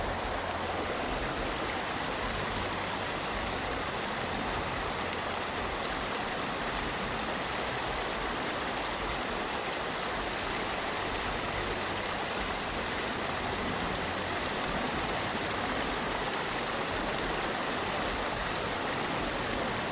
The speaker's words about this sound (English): Sounds like a weir.